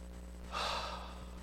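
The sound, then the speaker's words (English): A deep breath taken in and let out, heard as one soft, airy rush of breath that swells and fades over a steady low hum. “If you all take a deep breath in with me for a second and let it out in a moment.”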